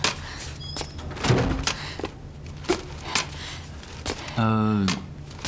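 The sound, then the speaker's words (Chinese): A door is being pushed shut, giving a couple of dull thuds and knocks amid light shuffling, followed by a short voice near the end. “帮我把门关上。”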